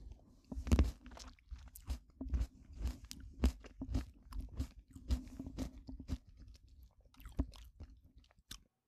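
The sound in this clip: Crunchy chewing of food, a long run of many sharp bites and crunches in an uneven rhythm, fairly loud and close, with no talking over it.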